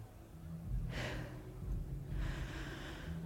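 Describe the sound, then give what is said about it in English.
Slow breathing in and out, heard as two long, soft, breathy rushes of air separated by a brief pause, with no talking. “Yes, just breathe out. The in-breath will take care of itself. Okay.”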